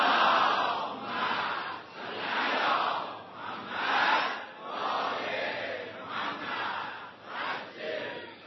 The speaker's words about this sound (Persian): برای اینکه انشالله زودتر این قرآن به چاپ برسه و در دسترس عموم قرار بگیره، یکی از اون صلوات بلندتون خط بفرمایید.